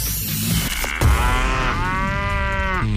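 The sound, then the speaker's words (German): A cow moo sound effect used as a radio station jingle: a brief rustling lead-in, then one long, loud, drawn-out moo that holds steady before cutting off. “Achtet einfach auf das Enjoy-Mu-Geräusch bei uns im Programm. Nochmal zur Erinnerung, so klingt's.”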